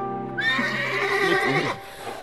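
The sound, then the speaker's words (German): A stallion neighing, one loud, drawn-out whinny with a bright, wavering harmonic tone that fades near the end. “Hey, Binky, der Hengst setzte über die Brüstung hinweg und trabte in den blauen Morgenhimmel.”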